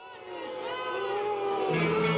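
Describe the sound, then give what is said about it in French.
An angry crowd of citizens greets the mayor at a Mascouche town council meeting with a sustained, loud chorus of booing and jeering voices that swells slightly toward the end. “Ce que vous entendez là, c'est l'accueil que les citoyens de Mascouche ont réservé hier soir au maire Richard Marcotte lors de l'Assemblée du conseil municipal.”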